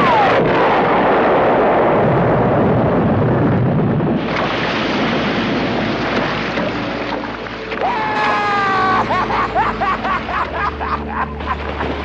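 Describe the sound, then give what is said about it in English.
A shark is blown up by a rifle shot in the film Jaws: a loud, sustained roaring blast that fades into a rushing, churning noise, with higher tonal squeals coming in toward the end. “Obviously, at the end of this movie, the shark is also killed. In the movie, it's blown up by the smile you son of a bitch shot.”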